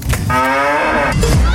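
A single drawn-out cow moo, used as the moo sound of a Müller Milk bottle in a Dutch advert, sustained and loud for about a second with rich, steady harmonics.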